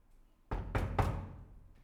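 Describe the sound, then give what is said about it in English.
Banging on a door: three heavy, deep thuds land in quick succession, each with a short resonant tail that fades out. “So running to your neighbor, you nearly break down the door, banging, to get some bread.”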